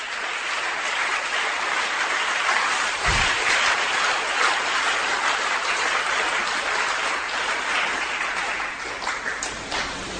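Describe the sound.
A church audience applauds in sustained, dense clapping that runs steadily through the whole stretch, loud and even with no pause.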